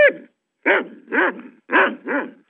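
A dog barks five times: a clipped bark at the start, then two pairs of loud, throaty barks separated by short pauses, with no voices.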